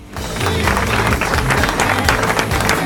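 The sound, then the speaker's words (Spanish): Applause rings out on a talk show, a dense, steady wash of clapping that holds at an even loudness for about three seconds, with a low, tonal layer running underneath. “La aplaudo, la aplaudo.”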